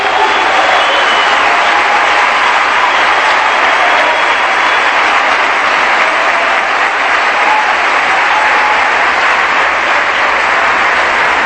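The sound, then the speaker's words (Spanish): Applause from a Spanish-speaking church audience during a sermon, a loud, continuous wash of many hands clapping with crowd noise, steady throughout without any break or talk. “Le damos un aplauso de dolor.”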